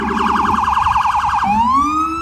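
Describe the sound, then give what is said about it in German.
Wailing emergency siren on a New York City street, police or ambulance, rapidly warbling up and down at high pitch, then switching to a slow rising wail; loud and continuous, no talk. “Die Sirenen der Polizei und Rettungsfahrzeuge erträgt nur, wer sich die Ohren zuhält.”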